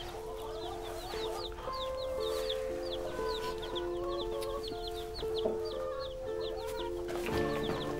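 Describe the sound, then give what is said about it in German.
Chicks and chickens clucking: many rapid, high peeps and clucks repeat throughout, faint over a steady tonal hum. “Wir waren uns doch einig, keine Küken.”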